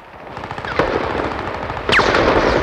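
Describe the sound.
A submachine gun firing during a hillside battle: two sharp, loud reports punch out of a dense, continuous rattling crackle, with no voices.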